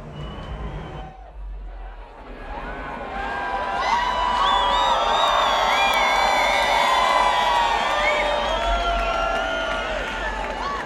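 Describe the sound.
A festival crowd cheers at the Krone Hit Electric Love Festival mainstage, with loud whoops and shouts that swell after a quieter start and hold as a dense, sustained roar.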